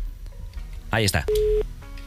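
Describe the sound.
A telephone line tone sounds while a call is being dialed: a single short, steady mid-pitched beep comes right after a brief burst of voice, over a low background hiss.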